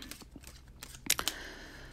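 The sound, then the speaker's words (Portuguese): Tarot cards are shuffled and one is drawn, giving quiet papery flicks and taps that end in a few sharper snaps. “Então vamos embaralhar aí. tirar uma cartinha aqui pra gente ver.”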